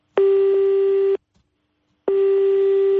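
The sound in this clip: Telephone tones from an unanswered call: two long, steady, loud buzzing tones, each about a second, separated by a silent pause of similar length.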